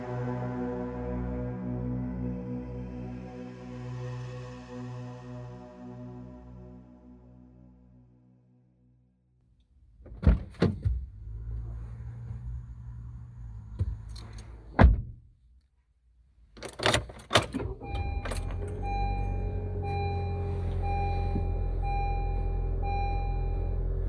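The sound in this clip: Car doors, windows and keys inside a vehicle produce a few heavy thunks and clunks with rattling in between. A droning hum comes before them, then a gap of near silence, and a low rumble follows at the end.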